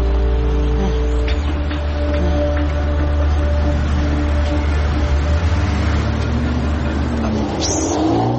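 Steady low engine drone and road rumble inside a moving city bus on a morning ride, the motor's tone holding even for most of the stretch and shifting as it picks up speed near the end.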